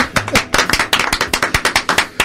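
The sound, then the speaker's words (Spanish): Hand claps from the hosts, a quick, uneven run of many sharp, crisp claps that keep going throughout without voices. “yo por mí damos un aplauso que quede grabado en nuestro podcast.”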